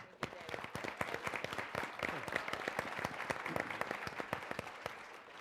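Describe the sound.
Audience applause at a political event with Massachusetts governor candidates, welcoming Martha Coakley: many crisp claps in a dense, steady patter that runs through the whole clip.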